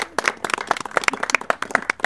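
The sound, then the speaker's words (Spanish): A small group claps for a participant at a hospital crafts gathering, many quick, uneven hand claps overlapping in a lively burst of applause. “Un aplauso para la compañera.”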